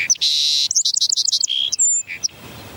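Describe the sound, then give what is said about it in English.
A song sparrow, a small brown and white bird with a dark breast spot, sings one short song: a few sharp opening notes, then a fast run of repeated chirps and a higher whistled note. It is clear and loud, with no other sounds. “That song sparrow has about a dozen songs in its repertoire.”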